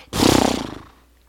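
A person vocally imitates a horse with a single loud, rough, rapidly pulsing burst that lasts under a second and fades out.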